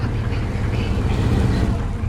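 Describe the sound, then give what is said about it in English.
A motorboat speeds across the water, its engine a loud, steady low drone with a broad wash of noise that continues without a break. “Marshall's boat speeds across the water.”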